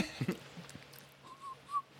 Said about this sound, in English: Starts whistling.